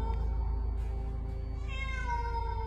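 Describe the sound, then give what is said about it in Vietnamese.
A cat meows in a dark house: one drawn-out, wavering meow in the second half, over a steady low hum. “Ấy là tiếng mèo kêu. Tiếng mèo vang vọng trong bóng tối.”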